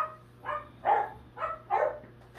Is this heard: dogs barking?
yes